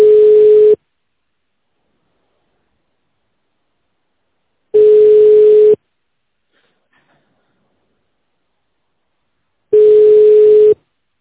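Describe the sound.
Telephone waiting tone during a call transfer to an operator: three steady, mid-pitched beeps, each about a second long, separated by long silences.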